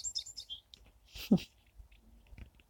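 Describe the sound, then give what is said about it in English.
A wren chirps by its birdhouse on a bush in an outdoor patio, giving a few faint, high, thin chirps near the start against a quiet background. “I'm sitting outside. It's nice out here on the east side of the house. Wren is nesting in this birdhouse that David built that's on the bush in the center patio. He's going in and out of there all happily.”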